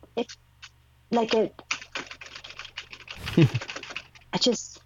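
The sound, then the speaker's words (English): Fast, uneven clicking of computer keyboard keys, tapped in clustered bursts with short gaps, and a brief voice sound over part of it. “have you ever just messed with the keyboard letters on a keyboard or a typewriter just because you like the sound?”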